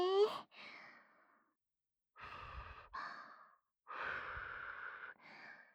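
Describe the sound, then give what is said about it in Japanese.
Soft, breathy blowing cools hot food being fed from a spoon, a few faint, airy puffs in two longer bursts separated by a short pause. “ふうふうしますね。”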